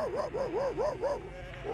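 A hairy two-year-old adolescent dog gives a quick run of high, whiny barks and yelps. Each one arcs up and then down in pitch, fairly quiet and steady in rhythm.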